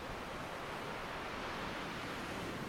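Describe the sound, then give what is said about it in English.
Sea waves carried in by a steady wind, heard as a quiet, continuous rushing wash of surf with no distinct crashes, even and unbroken throughout. “as each wave comes in from the sea, carried by the steady wind. It grows its height”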